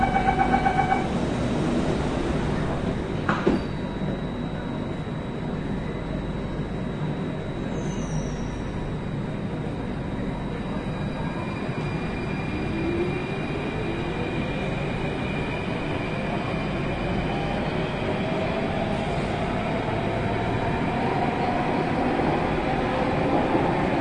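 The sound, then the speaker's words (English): Subway train pulling away from a station: a steady rail rumble with a motor whine that climbs gradually in pitch as the train gathers speed. “Doors are closing.”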